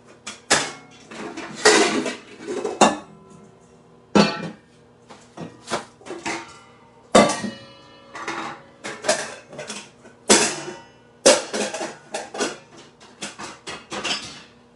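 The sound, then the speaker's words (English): Clatter of three big bowls being taken out and set down in a kitchen, with many sharp knocks and clinks in quick, uneven bursts, some louder and some softer, and no talking. “And let me get some bowls here so you can actually see the popcorn.”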